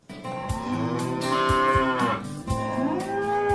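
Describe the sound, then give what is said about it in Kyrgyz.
Simmental breeding cattle moo on a farm at Issyk-Kul, a herd brought in from Khakassia, Russia. Long, low, harmonic moos run almost unbroken, with a brief break partway, and no talk. “Аксуу районунун Бозчу айылынан фермер Марат Жусупов өткөн жылы Орусиянын Хакасия жергесинен 60 баш сементаль породасындагы асыл тукум уйларды алып келген.”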